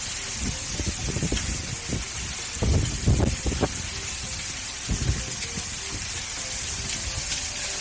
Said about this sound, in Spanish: Este es el sonido de la lluvia que ha caído y del viento.